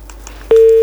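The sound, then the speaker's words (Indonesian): Busy tone on a telephone call whose line has cut off: one steady mid-pitched beep that follows faint line noise. “Aduh, kenapa? Oh, mungkin ini ya, karena cuaca kali ya, jadi terputus-putus gitu ya.”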